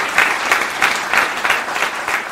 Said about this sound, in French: Merci, mais du coup, une applaudissement.